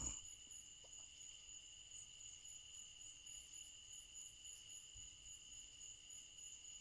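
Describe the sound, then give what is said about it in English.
Southern crickets chirp in a steady, high, continuous trill that stays faint and even throughout, with no voices over it. “Can you hear the crickets? It's the song of the crickets.”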